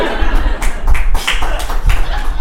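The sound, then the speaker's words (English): Only part of an audience claps: scattered, uneven claps and thumps sound over a loud, busy background. “I love how you clapped, and the rest of you went, nah, get fucked.”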